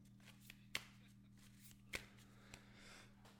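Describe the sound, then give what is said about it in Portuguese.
Playing cards are shuffled very faintly, with a soft riffling rustle and a few sharper snaps of the cards spread through it. “Tô embaralhando cartas.”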